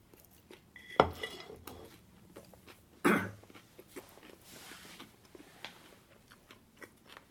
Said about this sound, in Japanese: 唐揚げを食べさせていただきます。